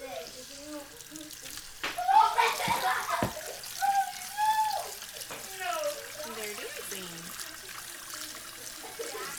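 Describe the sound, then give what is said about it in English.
Pumpkin seeds rinsed in a colander under a running tap: a steady rush of water with splashing and trickling, louder for a few seconds in the middle, while people talk over it. “Rinse your seeds in a colander. Okay, let's do this. Let's rinse them off.”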